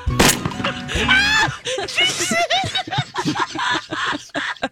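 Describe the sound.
A shotgun blast sound effect gives one sharp, loud bang at the very start. Lively talk and laughter from several voices follow.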